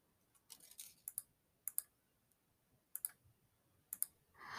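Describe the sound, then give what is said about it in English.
Faint keystrokes on a computer keyboard. A short cluster of clicks is followed by sparse pairs of quick taps, separated by quiet pauses. “hang on, I have to type something.”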